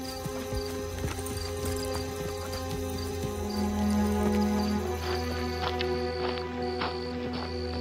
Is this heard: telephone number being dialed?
no

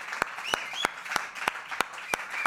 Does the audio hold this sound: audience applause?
yes

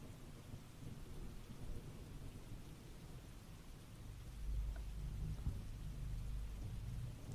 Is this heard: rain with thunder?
yes

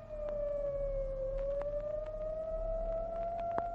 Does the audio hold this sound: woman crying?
no

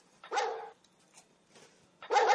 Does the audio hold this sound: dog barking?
yes

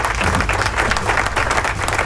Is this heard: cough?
no

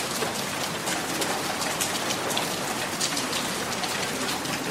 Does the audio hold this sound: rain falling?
yes

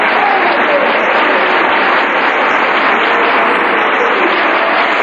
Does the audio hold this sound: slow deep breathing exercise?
no

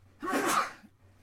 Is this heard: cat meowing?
no

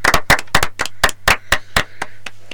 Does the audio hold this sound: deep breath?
no

